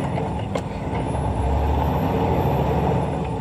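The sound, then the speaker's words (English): Low, steady engine rumble of a 10-speed truck pulling in first gear, loud and continuous throughout, with a faint hiss on top and no distinct break or gear change standing out. “He brings us through his gear shifting on his 10-speed truck. Roll that other tape. Here we go. Okay, folks, I'm at first gear.”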